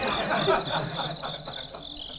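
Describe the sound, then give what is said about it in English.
City crickets chirping in a steady, high-pitched trill with a rhythmic pulsing texture, continuous throughout and fairly prominent. “I like these crickets in this thing. They're much more pleasant. Like, I could sleep to that.”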